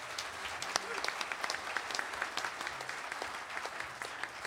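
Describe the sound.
Audience applause greets a harp player at a folk festival string workshop: a steady, dense wash of many hands clapping at once, with sharp individual claps poking out, holding an even level throughout without fading.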